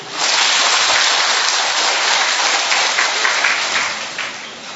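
A church audience applauds in thanksgiving to God after a parishioner's testimony, the clapping dense, loud and unbroken before easing slightly at the end.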